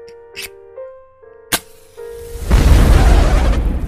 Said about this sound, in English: But don't worry, you came just in time for me to light the fire.